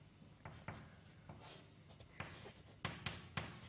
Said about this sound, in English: all diagrams except, okay, now I have to draw them again.